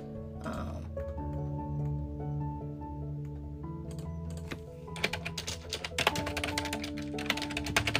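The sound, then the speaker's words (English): Typing on a computer keyboard at a healthcare worker's desk: many quick, light clicks that grow denser and sharper in the second half, over a steady tonal background. “I'm also sorry, y'all, if you hear a lot of typing in the background.”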